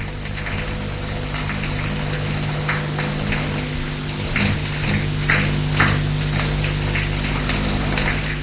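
A shower runs with a steady, hissing spray of falling water. The sound is continuous and even, with faint splashes and no voices.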